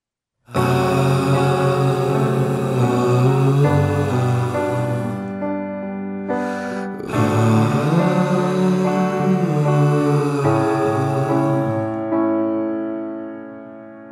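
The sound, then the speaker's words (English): A whispered vocal track stacked on top of light chest-voice singing, producing sustained tones with a breathy hiss above them. There is a brief breath gap midway, then the sound tapers off gently at the end. “So in that little spontaneous example I just gave you, what you heard was a whisper track stacked on top of light chest voice.”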